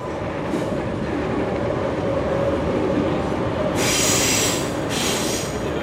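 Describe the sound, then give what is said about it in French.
RER commuter train passing in Paris's 7th arrondissement: a steady, loud rumble of wheels on rails, broken by bursts of high-pitched wheel squeal in the second half. “On est dans le 7e arrondissement à Paris. Ce que vous venez d'entendre, c'est le RER.”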